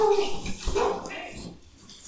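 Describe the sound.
A dog whimpers with soft, brief, high yips and whines that stay faint beneath people talking.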